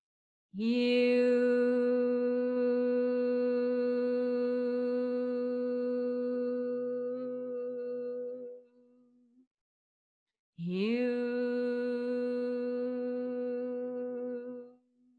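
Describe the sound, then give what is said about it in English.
One voice slowly sings the syllable Hu on the out-breath, holding two long, steady, resonant notes: the first lasts about eight seconds and the second is shorter, with a brief pause for breath between them. “as you breathe out, you sing the word Hue, H-U, and it sounds like this.”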